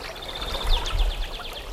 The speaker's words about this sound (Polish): Od razu się zrobiło milej od tych plusków i szumów wody.